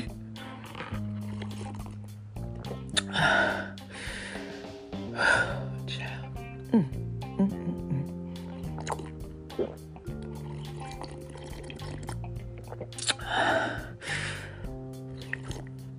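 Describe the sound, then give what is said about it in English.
A few loud slurping sips of warm tea break through a steady music bed, with a person speaking between the sips. “Let me get some tea though. Hold on. This tea tastes so good. Y'all just don't even know how good this tea tastes.”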